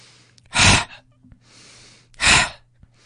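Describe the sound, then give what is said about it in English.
Two forceful exhales are pushed out by pulling the tummy muscles in. Each is a sharp, loud burst of breath, with a softer breath in the pause between them. “you breathe in. And as you breathe out, you pull your tummy muscles in and you use that to force the breath out with a sound.”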